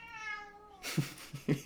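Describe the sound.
A cat meows once, a drawn-out tonal cry, followed by a few brief, soft noisy bursts. Quiet overall.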